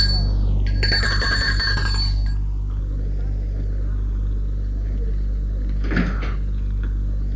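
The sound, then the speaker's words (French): A bell rings at the gate of a retirement home standing alone among fields in a park. One bright, ringing tone lasts about a second and a half over a steady low hum, then fades into quiet background. “Il sonne au portail.”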